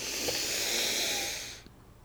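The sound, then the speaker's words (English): A slow, deep breath drawn in during a guided meditation: a soft, steady, airy hiss that lasts over a second and then fades away. “So let's take in that deep breath.”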